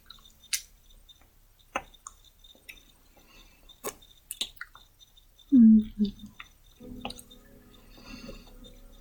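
Wet sucking and slurping as someone sucks on fingers: a few soft, squishy mouth sounds over near silence, with one louder wet burst partway through.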